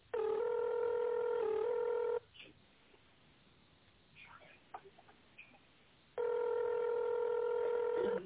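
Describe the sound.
Electronic telephone tones sound on a line while an extension number is entered. A long, steady, buzzy tone plays at the start and returns at the end, with faint short blips and clicks in the quieter stretch between.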